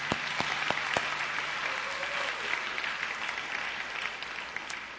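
A church audience applauds to welcome guests, a sustained, even wash of clapping with a few crisp individual claps standing out early on.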